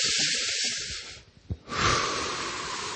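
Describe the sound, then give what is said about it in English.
A group taking a deep breath in and letting it out during a gathering, a broad airy rush that drops away briefly before swelling back and holding steady, with no talk over it. “everyone take a deep breath in and let it out. And let's do it again.”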